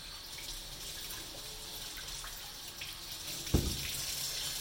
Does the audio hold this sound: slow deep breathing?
no